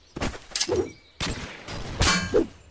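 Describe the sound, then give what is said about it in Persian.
Enemy machine gun fire in a video game, heard as several loud, sharp bursts with metallic clangs and noisy, ringing tails, separated by short gaps. “الان همینا که تیربار دارن و من رو دارن میزنن.”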